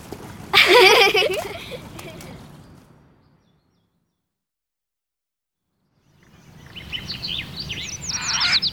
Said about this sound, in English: What are they, Billy? They're birds. They're birds, Billy. Birds! Tweet,